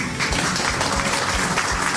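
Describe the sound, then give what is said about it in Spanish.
An audience bursts into dense, loud applause during a Halloween special program, a brief steady wash of clapping lasting about two seconds. “Bien fuerte ese aplauso.”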